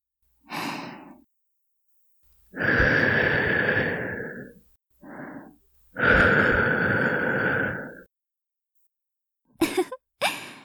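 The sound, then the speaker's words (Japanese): Gentle, breathy blowing into the listener's ear in an ASMR setting: short soft puffs and two long sustained airy blows separated by pauses, ending with a couple of quick puffs. “こちらのお耳はもう綺麗になりましたね。それではお耳を吹かせていただきますわね。”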